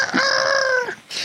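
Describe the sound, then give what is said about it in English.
A rooster crows once in a long, loud, drawn-out call to mark morning, heard alone with a brief pause and a further burst of sound at the end. “We hear a rooster crowing, so it's morning.”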